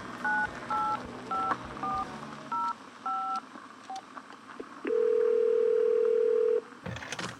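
A touch-tone telephone is dialed in a series of short, evenly spaced dual-tone beeps. A long steady tone lasting about two seconds follows, then brief faint noise, with no talk.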